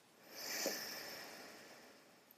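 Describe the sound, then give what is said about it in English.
A single slow exhale through the right nostril during an alternate-nostril breathing exercise: a faint, soft, airy hiss that swells and then tapers away over about two seconds. “Taking the index finger to close the left nostril and exhale through the right.”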